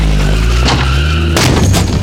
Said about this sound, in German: Vor Haus Nummer 9 hält ein Auto.